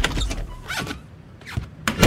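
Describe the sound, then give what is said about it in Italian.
A door is opened. A few short, whooshing, mechanical sweeps are heard, and a louder thump comes at the end. “Mi aiutate ad aprire la porta?”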